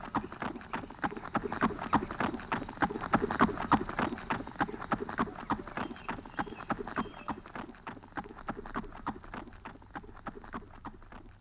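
Horse hooves clip-clop at a quick, steady galloping rhythm, with many sharp strikes repeating throughout. The strikes are loud at first and fade gradually toward the end.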